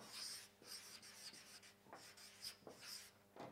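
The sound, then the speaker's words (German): Pen strokes write two words on a small sketch, quiet, scratchy rubbing sounds coming in a few short bursts with brief pauses between them. “Ich möchte euch eine kleine Skizze malen. Also, ich bin jetzt nicht der großartigste Künstler, aber ich habe auch wirklich nicht so viel vor heute. Sondern ich möchte zwei Worte schreiben.”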